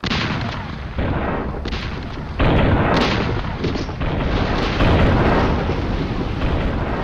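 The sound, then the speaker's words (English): Cannon broadside fired from a sailing ship into the side of a pirate vessel: a dense, rolling roar of blasts that stays loud throughout and swells in a few abrupt steps. “the Fetter Mohammed turns and then pumps a massive broadside into the side of the pirate vessel.”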